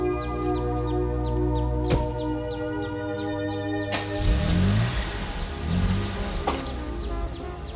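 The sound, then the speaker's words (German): A car engine revs as the car pulls away, heading off to Vienna. Its low pitch climbs twice over a steady tonal background. “Da fährt er hin, nach Wien”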